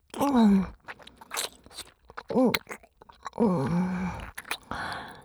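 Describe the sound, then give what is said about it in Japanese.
Thorough chewing of food sounds as moist, crunching mouth noises in several bursts, with short voiced hums and groans mixed in between them. “せっかくやからこのまま飲み込んじゃうね。まずはしっかり咀嚼して、”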